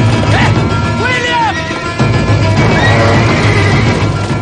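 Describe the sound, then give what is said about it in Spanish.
Horses whinny in a burning stable, several high, wavering neighs rising and falling over a loud, continuous crashing roar that stays heavy throughout. “entra en un establo en llamas. ¡Fuera! ¡Fuera! Con ayuda de Evans, logran sacar algunos caballos.”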